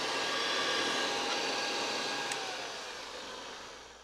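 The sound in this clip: Steady, loud whooshing motor roar of a 1935 Airway vacuum cleaner running, holding an even tone before slowly fading toward the end, with no voices.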